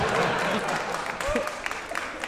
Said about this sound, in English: Your lacklustre applause is noted.